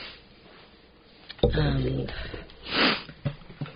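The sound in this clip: Sniffing from a runny nose: a breathy, snuffling inhale near the end, with voiced sounds and a few short noises around it.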